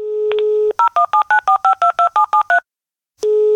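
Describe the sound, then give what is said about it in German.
Telephone keypad tones dialing a call: a steady dial tone, then twelve quick even beeps of two-pitch keypad tones in a rapid regular rhythm, a brief silence, and the dial tone returning, loud and alone. “Ein Anruf in Thüringen.”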